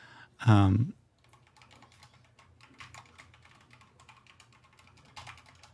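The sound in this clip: Rapid keyboard typing as someone writes a note on a computer keyboard during a tabletop role-playing game. A short loud burst at the start gives way to a soft, continuous patter of many quick key clicks.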